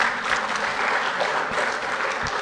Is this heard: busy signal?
no